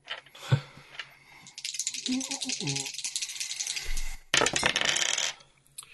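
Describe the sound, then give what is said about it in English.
Dice rattle and tumble across a table during a tabletop role-playing game, in two bursts of busy clattering separated by a short break. A voice is briefly heard between them. “So we will roll Grace's orderly first.”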